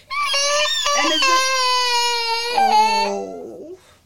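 A baby in a crying fit wails loudly in a sustained, high, strained cry with a few brief catches. The pitch drops lower toward the end before the crying fades.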